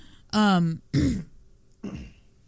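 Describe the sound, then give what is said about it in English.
Throat clearing in three short, rasping bursts, the first loud and partly voiced, the second similar, and the third fainter and rougher. “So how do we keep clearing our throat at the same time?”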